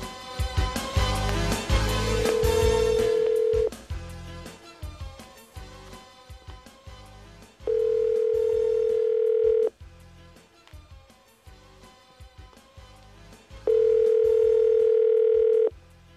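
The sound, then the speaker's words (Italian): An outgoing phone call rings out while trying to connect live: three long, steady ringback beeps, evenly spaced, over a busy, rhythmic background. “ulteriore disperato tentativo di collegarci in diretta con Luciano Gaucci”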